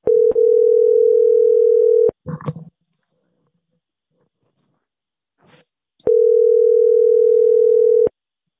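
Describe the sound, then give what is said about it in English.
A telephone dial tone sounds twice as a call is attempted. Each is a steady, unbroken hum lasting about two seconds, with a brief clatter and faint click in the quiet gap between them. “let's see if we can make a call now.”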